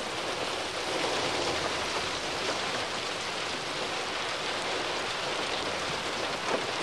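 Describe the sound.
Rain falls on a balcony as a steady, dense hiss of drops, even and unbroken throughout, with no voices.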